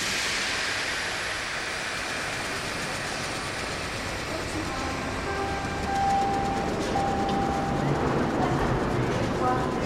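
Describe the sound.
Railway station ambience at a Paris train station: a steady, broad rumble of trains and crowd noise, with faint squealing tones rising through it now and then and a slight swell in loudness toward the end.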